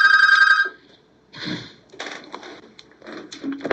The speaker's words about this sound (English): We've got a call. Okay, hold on just a second.